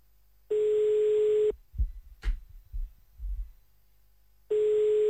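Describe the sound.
Telephone line tone while placing a call: two steady, buzzy, constant-pitch tones about a second long each, separated by roughly three seconds of low soft thumps and handling noise.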